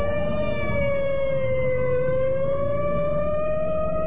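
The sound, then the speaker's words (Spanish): Wailing sirens from three police patrol cars speeding through city streets at night: a loud, sustained tone rich in harmonics that dips slightly in pitch and climbs again, sounding continuously over a low rumble. “3 autos patrulla recorrían las calles velozmente, haciendo ulular sus sirenas que rompían el silencio de la noche.”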